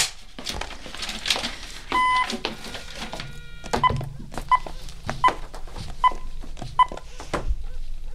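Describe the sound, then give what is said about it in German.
A quick run of touch-tone dialing beeps as a telephone's redial button triggers automatic number dialing, followed by five short, evenly spaced beeps, with faint thumps and low background noise. “Das Telefon. Es hat eine Wahlwiederholung. Aha. Fragt sich, wen er zuletzt angerufen hat. Könnte interessant sein. Na los doch, drück auf den Knopf.”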